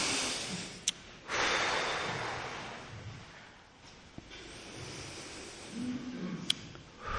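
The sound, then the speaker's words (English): Deep cleansing breaths, heard as a few long, soft swells of airy breath noise, faint and drawn out. “Let's get some cleansing breaths going. Just really feel your diaphragm.”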